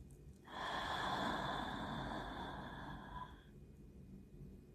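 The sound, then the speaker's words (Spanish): A long, steady exhale during a guided breathing exercise: a soft, airy rush of breath lasting about three seconds before easing off, with no talk over it. “Y ahora exhala.”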